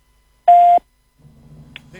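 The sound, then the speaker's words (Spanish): A voicemail beep tone on a phone line: one short, loud, steady mid-pitched beep, then quieter low hum. “Por favor, deje un mensaje. Después del tono, después del tono.”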